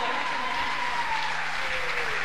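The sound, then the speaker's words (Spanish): Audience applause at a live evening music event, with steady, continuous clapping from a crowd that keeps an even level throughout. “Un aplauso para Radio Garín, que está haciendo este esfuerzo.”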